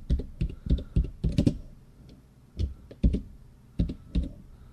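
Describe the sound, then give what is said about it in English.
Typing on a computer keyboard, in a few bursts of quick, crisp key clicks separated by brief pauses, with no talk. “I'm trying not to type here in ActiveWorlds and AWEC.”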